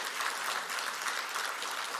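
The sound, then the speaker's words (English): Applause from a church audience for its worship music ministry: steady, dense clapping that holds at an even level throughout, with no voices standing out. “can we give a round of applause to our awesome music ministry and just the way that they lead us in worship?”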